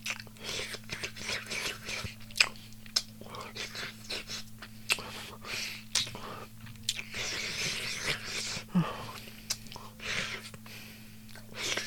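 Chewing food: many soft, wet crunching and biting clicks in an uneven rhythm, quiet, over a steady low hum.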